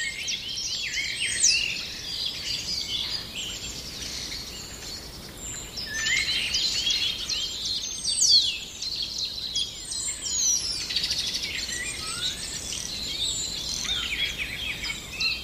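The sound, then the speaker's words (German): A starling sings a continuous, busy song of high whistles mixed with crackling, rattling notes and mimicked calls, including a blackbird's voice, with sharp chirps scattered throughout at a fairly even level. “Da diese hohen Pfiffe. Piep. Dieses Knistern und Knattern, all das ist Star. Der Star unter den Vögeln, weil er so viele Stimmen imitieren kann.”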